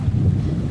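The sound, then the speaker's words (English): Wind and lake water outdoors, a steady low rumble of gusting wind with a continuous wash of water beneath it, no voices. “There's the lake, the wind, and the trees.”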